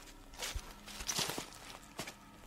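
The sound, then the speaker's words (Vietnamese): Footsteps of someone walking close behind, several soft, uneven steps with muffled thuds, moderately quiet and heard alone without talk. “Đằng sau lưng anh tự nhiên vang lên tiếng bước chân của ai đó.”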